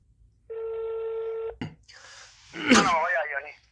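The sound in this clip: A touch-tone telephone tone sounds while a number is dialled on a keypad: one steady electronic tone holds for about a second, then a short click, and a voice speaks after it.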